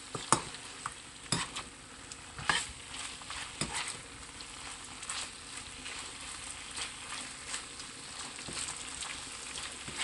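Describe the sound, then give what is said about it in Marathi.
Chicken frying dry in a pan over a high gas flame gives a steady, quiet sizzle. A few sharp scrapes and clatters of stirring break through at uneven intervals. “पूर्णपणे chicken dry करून घेऊया. Gas आपण high flame करूया.”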